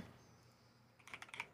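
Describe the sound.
Typing on a computer keyboard: after a stretch of quiet room tone, a quick, faint burst of a few sharp key clicks near the end.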